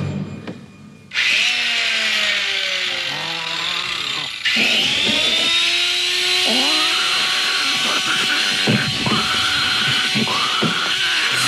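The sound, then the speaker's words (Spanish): A chainsaw started up and revved hard, giving a loud, continuous engine whine whose pitch keeps shifting as the throttle changes, running throughout with no voices. “enciende una sierra mecánica y corre hacia él.”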